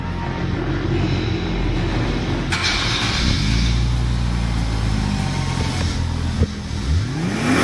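A twin-turbo engine in a new Z sports car, offered with a manual transmission, roars steadily with a deep rumble beneath a broad hiss, and its revs climb toward the end.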